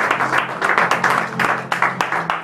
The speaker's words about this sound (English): Let's give a hand clap and praise.